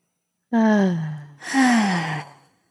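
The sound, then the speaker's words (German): Deep breaths taken during a guided relaxation exercise: two long, audible breaths in succession, each carrying a voiced, sigh-like tone that falls in pitch, heard alone without talk. “Und direkt nochmal, atme ganz, ganz tief ein bis in deinen dicken Zeh.”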